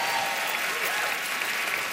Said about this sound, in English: clap for that